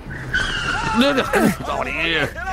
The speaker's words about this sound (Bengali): এই সময় ড্রাইভার আচমকা ব্রেকে পা দিতেই বাসের গতি কমে এলো।